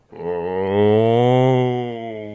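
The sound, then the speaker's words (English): A human voice imitates a cow mooing as it walks past a microphone, one loud, long, low moo held steady for about two seconds before tailing off. “Do you want to hear a cow walking past the microphone?”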